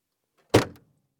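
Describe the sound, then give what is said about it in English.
A single short thud as a car trunk is opened, one sharp onset that fades quickly into silence. “Let me open the trunk for you.”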